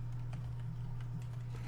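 Soft, scattered clicks of typing on a computer keyboard sit faintly over a steady low electrical hum throughout.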